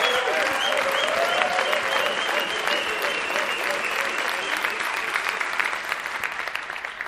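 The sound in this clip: Sustained audience applause honoring coaches at an event: dense, steady clapping that holds for the whole stretch and eases slightly toward the end.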